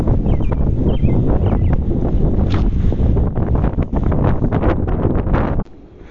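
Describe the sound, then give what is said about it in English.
A gust of wind blowing straight onto the microphone, producing loud, continuous rough buffeting that drops away suddenly near the end, leaving only faint background noise. “Oh my, sorry for the wind.”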